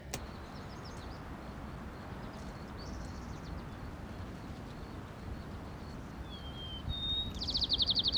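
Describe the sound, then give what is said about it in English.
White-crowned sparrow song: faint whistled notes, then a brief buzzy trill near the end, over a steady low wash of background noise. “White crown sparrow”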